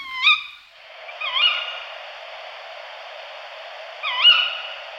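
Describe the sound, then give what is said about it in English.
Three sharp, high, nasal contact calls of a tawny owl, the well-known twit, each with a quick hooked pitch shape. The first two come about a second apart and the third follows after a long, quiet gap. “The tawny owl's twit contact call takes a bit of getting used to.”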